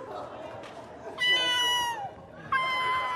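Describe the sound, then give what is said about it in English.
A cat meows twice, two drawn-out, high, harmonic cries, the first sliding down in pitch at its end, over a steady murmur of background noise. “did you hear that? Of course I heard it. That's my cat.”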